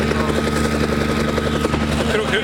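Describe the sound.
An old helicopter's engine runs with a loud, steady drone, a layered harmonic hum with a fast rhythmic throb from the rotor that holds even throughout.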